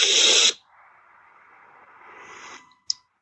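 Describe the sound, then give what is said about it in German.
A slow, deep inhale through the nose during a breathing exercise: a soft, steady, breathy hiss lasting about two seconds that swells gently, following a louder noisy burst at the start. “Nochmal tief durch die Nase einatmen.”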